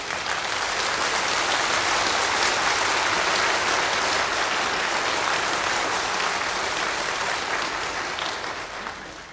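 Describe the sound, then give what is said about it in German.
Sustained applause from a crowd of supporters at a 1950 political speech by the Federal Republic of Germany's first chancellor. The steady, dense clapping holds at an even loudness and eases off slightly at the end. “Ich möchte auf Ihren Beifall eingehen”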